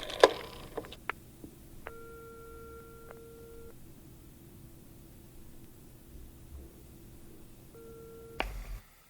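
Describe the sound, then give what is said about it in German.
A telephone ringing tone sounds on the line while a call waits to connect: two steady electronic tone bursts, the first longer than the second, separated by a pause. Faint line hiss runs underneath, with a few clicks near the start and the end. “Zurück in ihrer Zentrale lauschte Justus dem Tuten in der Leitung.”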